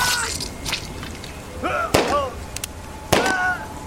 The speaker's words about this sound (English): raised her gun and fired.